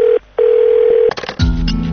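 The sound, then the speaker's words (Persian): A telephone dial tone hums as a steady, loud pitch, drops out briefly and resumes, then gives way to a quick run of clicks and tones and a lower, rougher buzzing sound. No one speaks. “شیراز تماس میگیرم.”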